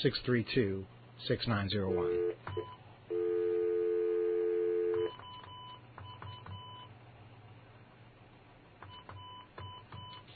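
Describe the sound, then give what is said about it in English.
Touch-tone phone being dialed with a leading 9 and an area code: after a brief voice, a steady tone holds for a few seconds, then a series of short, moderate electronic beeps. “Let's try it with the area code. Dial 9 and then”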